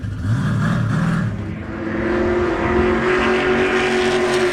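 A race car engine roars as it accelerates on a track, a loud, sustained mechanical drone that holds steady from start to finish with no pauses.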